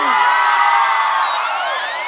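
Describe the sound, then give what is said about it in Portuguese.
A concert crowd in São Luís shouts and cheers in a loud, sustained roar of many voices, with high whistles sliding through the din. “Cadê o grito de São Luís aí? Cadê o grito de São Luís aí? Sai do chão, São Luís!”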